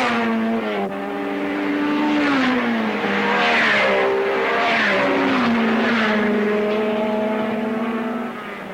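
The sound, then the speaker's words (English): A green Lotus racing car's engine drives around a race circuit in a sustained, buzzing harmonic howl. Its pitch dips and climbs as it runs, staying loud and steady throughout with no voices. “The green Lotus number seven is still in front, and as the race goes on, Moss shows that he's untouchable on a circuit which calls for driving skill.”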